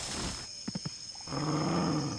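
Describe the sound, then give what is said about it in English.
A leopard growls in three short, low bursts close together, brief and fairly faint against a steady background hiss, with no talk over them. “It's a leopard. It's got beautiful fur.”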